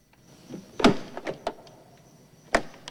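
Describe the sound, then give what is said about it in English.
A car door with a cracked windscreen being opened: a few sharp clicks and thuds from the handle and latch, with a louder clunk early on and another near the end. “He goes to open the door.”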